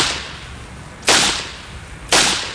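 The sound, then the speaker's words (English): Two sharp gunshots crack out about a second apart, each a loud, sudden burst that fades quickly into low background noise. “Oh, no. He shot him.”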